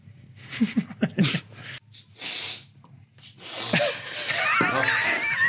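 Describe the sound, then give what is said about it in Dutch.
Nasal spray is used with sharp sniffs and snorts through the nose: a few short vocal noises first, then breathy bursts and a longer hissing inhalation toward the end. “oh god, even wachten. Ik moet denk ik even neuspray doen.”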